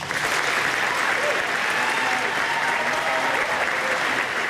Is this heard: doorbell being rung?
no